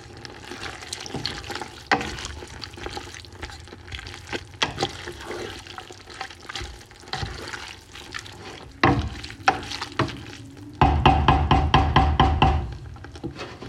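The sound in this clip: Running water splashes and trickles in a kitchen while greens are cooked, with scattered clinks and knocks of utensils throughout. Near the end the flow swells into a louder, steady rush.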